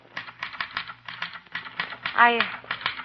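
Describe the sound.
Typewriter keys clacking while someone writes a weekly editorial: rapid, uneven mechanical clicks run throughout, with a person briefly speaking partway through.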